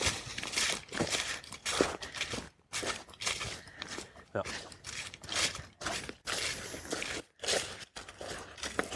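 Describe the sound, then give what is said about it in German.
Footsteps walking along the Mauerweg trail toward the Hubertussee lake: a steady run of many rustling, crunching steps at moderate loudness, with indistinct voices murmuring alongside. “So, wir gehen jetzt mal zum Hubertussee.”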